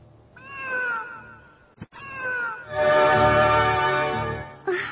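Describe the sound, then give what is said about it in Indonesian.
A cat meows on a house roof, giving a few drawn-out, tonal meows. A brief sharp click falls between the first two, and the longest, loudest yowl comes near the end before a final short call. “Mendengar suara kucing di atas atap rumahku. Aneh sekali. Dari mana datangnya kucing itu?”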